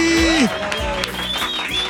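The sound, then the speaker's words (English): Applause on a radio morning show, dense and steady, holding an even level for the full two seconds, mixed with a few gliding whistle-like tones. “Y'all give it up for Gary with the T.”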